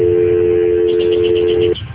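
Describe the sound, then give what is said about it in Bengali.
Telephone line tone as a phone is being dialled: one continuous, steady mid-pitched tone held for almost two seconds over a constant hiss, then cutting off abruptly near the end. “আচ্ছা আচ্ছা, let me dial.”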